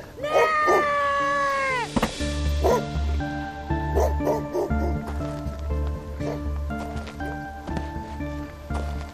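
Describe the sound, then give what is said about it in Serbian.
Dog barking repeatedly, a loud run of sharp barks and short yips with some whimpering between them, uneven in rhythm. “Ima koga? Dobar pas. Gazda!”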